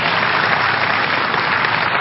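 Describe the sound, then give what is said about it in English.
Steady applause from an audience at a church service, a dense, even wash of many hands clapping that holds at a constant level for two seconds with no voices on top. “You're clapping. Your hands are for you. And you're not paying to clap.”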